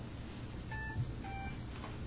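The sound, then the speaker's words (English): Two short electronic beeps from a new mobile phone, each a brief steady tone, sounding faintly over a constant low background hum. “Somebody's phone. I'm sorry, I got a new phone. That's what it sounds like.”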